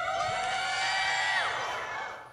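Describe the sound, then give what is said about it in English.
Studio audience cheering played as a sound effect, a sustained chorus of whooping voices that holds steady, then tails off with falling pitch and fades near the end. “It's fun sound effects. It's studio audience. Yeah. Yeah. Take a studio audience with you.”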